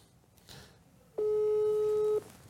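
A telephone ringing tone sounds during an outgoing call: one steady, mid-pitched tone lasting about a second, clearly louder than the quiet line noise around it.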